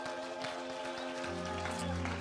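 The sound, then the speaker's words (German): Applause from a church audience welcoming its Ludwigslust site, a soft, scattered patter of hands mixed with sustained musical tones running underneath. “Zurück können wir Ludwigs Lust, unserem Standort im hohen Norden, mal einen riesen Applaus geben.”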